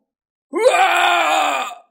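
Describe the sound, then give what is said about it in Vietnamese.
One loud, drawn-out human cry of agony, a strained wail that rises briefly at its onset, then holds steady for over a second before fading out. “Cách đó không xa truyền đến một tiếng kêu thảm”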